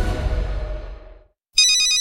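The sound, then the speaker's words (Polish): A mobile phone ringtone signals an incoming call. A fading sound ends, and after a brief silence the loud, bright electronic melody begins abruptly. “Największa gwiazda kobiecej piłki na świecie właśnie do Ciebie dzwoni.”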